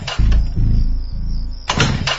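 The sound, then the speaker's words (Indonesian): Rough, sputtering cranking of an old motorcycle engine that had suddenly died and is being restarted without catching: a few loud chugging bursts, a steadier stretch of engine noise, then another strong burst near the end. “Ya, aku coba maklumi motor tua. Coba menyalah motorku,”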